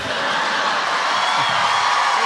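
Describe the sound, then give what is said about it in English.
Audience cheering and whooping after a joke, a dense steady roar of many voices that holds at an even, fairly loud level throughout with no distinct words. “They're cheering.”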